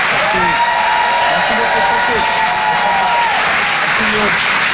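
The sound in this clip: Comedy club audience applauding after a stand-up set, loud continuous clapping with a voice speaking over it.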